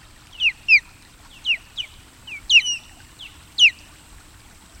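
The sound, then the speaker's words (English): Osprey calls at a nest greeting an adult returning with a fish. Many sharp, high, whistled chirps come in irregular clusters, some downslurred, over a faint low background hum. “Upon arrival, the osprey may be greeted by these sounds.”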